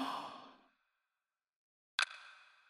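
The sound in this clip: Soft breathing during a guided relaxation exercise: a faint airy breath trailing off, a stretch of silence, then a short breath that starts abruptly.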